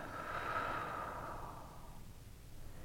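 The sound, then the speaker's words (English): A person breathing slowly in and out during a guided meditation: one long, soft, airy breath that swells and then fades away, faint and alone with no talk. “Just breathing, no content, breathing in and out.”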